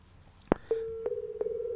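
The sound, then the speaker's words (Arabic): Dial tone after a telephone line cuts off: a sharp click, then a steady mid-pitched tone that holds evenly, with a few faint clicks over it. “انقطع الهاتف”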